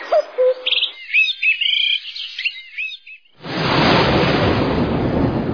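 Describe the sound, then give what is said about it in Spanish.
Birds chirp and warble among the flowering guayacán trees near Loja, a few bright, quick calls over about three seconds. A loud, steady, rushing noise then takes over abruptly. “Los sonidos de las aves.”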